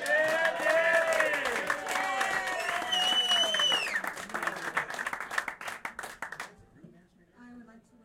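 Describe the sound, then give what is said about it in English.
Applause for Dan at a party: loud, dense clapping from a crowd with whooping cheers mixed in, thinning to scattered claps and then fading out near the end. “Let's hear it for Dan.”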